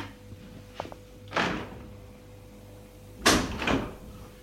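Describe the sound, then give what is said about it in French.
Knocking on a door: a single dull thud, then after a pause two more close together, moderately loud against a quiet background. “Lorsque la montre marque 11 heures, on a frappé à la porte.”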